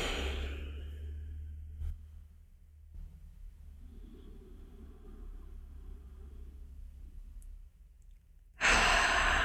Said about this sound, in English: Let's take a couple deep breaths in here.